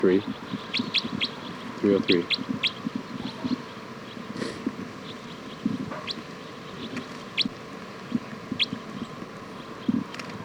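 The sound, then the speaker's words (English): Birds chirp in many short, sharp, high-pitched calls, scattered irregularly across the whole stretch over a faint, steady background hiss. “This is bird”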